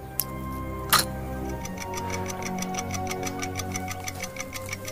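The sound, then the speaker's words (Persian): Ticking of a gold-coloured pocket watch: rapid, even ticks repeat many times at a steady rhythm, preceded by a couple of sharp clicks, with no talk. “از داخل جیب پیرهنش یه ساعت طلایی رنگ در میاره”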